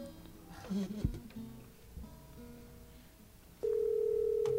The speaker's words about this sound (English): I'm dialing the number